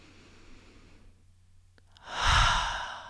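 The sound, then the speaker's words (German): A deep breath drawn in during a guided meditation: after a quiet pause, a single breathy rush swells, peaks and then eases off toward the end. “Atme tief ein, als würdest du zum allerersten Mal einatmen.”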